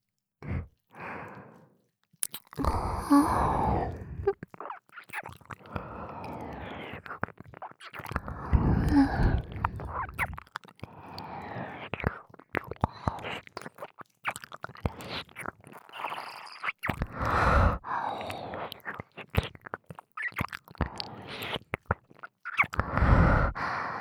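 Wet mouth sounds of nibbling and licking on a listener's ear in ASMR, with many soft irregular smacks and bursts mixed with breathy sighs and exhalations throughout.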